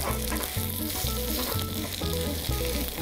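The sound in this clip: Food sizzles loudly in an oiled pan as it is flipped and pressed down, a continuous crackling hiss that holds steady without a pause.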